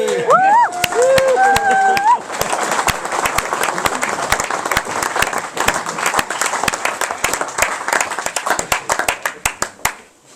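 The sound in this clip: An audience applauds and welcomes an act with dense, steady clapping and a few high whistles at the start, then thins into scattered separate claps as it fades out.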